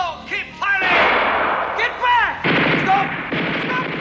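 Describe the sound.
Gunfire in a monster-movie scene: rapid bursts of loud shots and heavy blasts crackle throughout, mixed with shouting voices.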